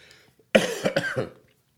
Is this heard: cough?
yes